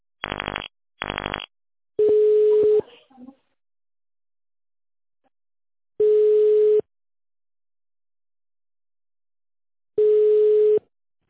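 Telephone tones on an automated phone line after dialing an extension: two short keypad beeps, then three long, steady, mid-pitched tones spaced evenly at about four-second intervals, with silence between them.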